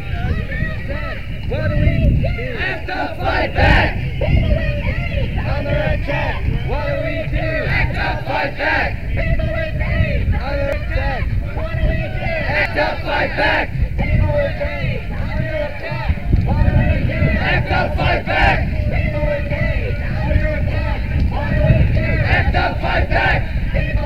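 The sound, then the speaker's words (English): Crowd noise at the International AIDS Conference at the RAI in Amsterdam: a loud, steady din of many voices, with shouting and chanting rising through the mass of chatter. “Nou, het is wel duidelijk, we zijn nu bij de RAI, A World United Against AIDS, Harvard Amsterdam Conference.”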